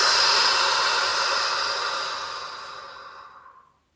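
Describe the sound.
A slow, deep breath out during a guided morning meditation breathing exercise: one long, airy hiss that holds steady, then gradually fades to silence, heard alone.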